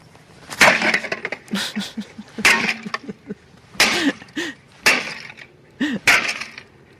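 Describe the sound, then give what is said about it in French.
A coffee machine being smashed with a sledgehammer: a series of heavy, sharp crashing blows with cracking, splintering debris, coming in uneven bursts with short pauses between strikes. “Ce que vous allez entendre, c'est le son d'un téléspectateur de Fox mécontent qui, littéralement, défonce à coups de masse sa machine à café.”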